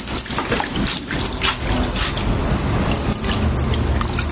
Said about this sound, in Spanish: cierra el grifo, por favor. Él la ignora y permanece con sus manos bajo el agua.